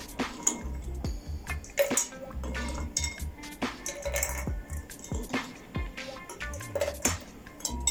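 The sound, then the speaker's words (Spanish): Ice cubes dropped into a stemmed glass while a whisky drink is being mixed: many bright, irregular clinks and knocks ring out, with small rattles and splashy taps between them. “tomaremos nuestra copa y incorporaremos primeramente el hielito que llevará al fondo”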